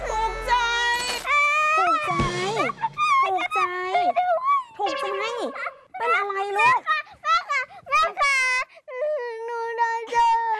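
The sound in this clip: A child crying and wailing loudly, a high, wavering voice that breaks into long sobbing bursts with short pauses and keeps going throughout.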